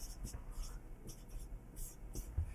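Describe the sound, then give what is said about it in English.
Handwriting while a probability calculation is worked out, heard as faint, scratchy pen strokes in short, irregular bursts at low volume. “I'll write it down.”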